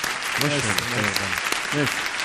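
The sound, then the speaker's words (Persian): Applause from an audience continues as steady, even clapping throughout, with a person talking over it. “تشویقش کنید”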